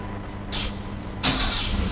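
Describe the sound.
A car engine starts: a short hiss, then the engine catches with a louder, steady running sound that carries on to the end.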